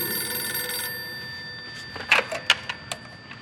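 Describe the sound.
A telephone bell rings loudly for about a second, its tone lingering as it fades, followed by a few sharp clicks and knocks.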